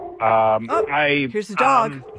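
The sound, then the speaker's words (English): A dog gives three drawn-out, tonal barks or yelps in quick succession, loud and close together. “there's a dog.”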